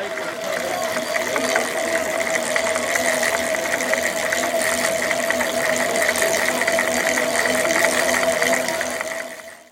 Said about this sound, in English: So I'm going to give you some sound of the whirring of the bicycle generators. It's a beautiful sound. This is how totally fossil fuel free power is made.